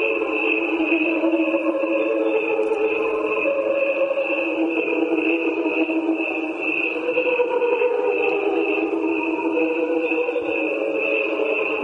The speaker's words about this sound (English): What you are hearing is a recording of crickets. There are two tracks. One is played at regular speed, and the other is a slowed down version.